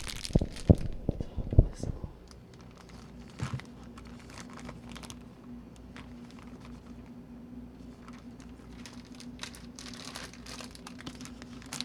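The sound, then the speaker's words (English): Tape pulled and torn to seal something: a few sharp ripping crackles at the start, then quieter rustling and handling over a steady low hum. “And now I'm going to tape.”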